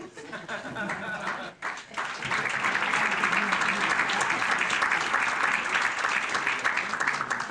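An audience at a national youth blood-donor forum applauds. After a short opening sound, steady, dense clapping swells and carries on evenly to the end.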